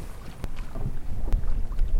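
Wind and water rush aboard a sailboat sailing out over shallow water, a steady, fairly loud blustery noise broken by a couple of brief knocks.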